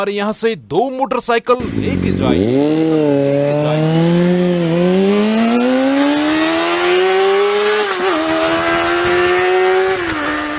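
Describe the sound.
A motorcycle engine roars loudly after a few short, choppy bursts, then holds a sustained note that climbs steadily in pitch for several seconds, dips briefly, and keeps rising to the end.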